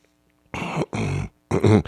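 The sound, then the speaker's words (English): Throat clearing by one man: three short, rough, throaty bursts, separated by brief pauses and heard alone. “Boy, am I clearing my throat.”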